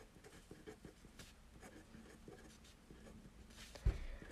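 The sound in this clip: Faint, steady scratching of a pen writing a letter by hand, soft strokes running on with a brief louder bump near the end.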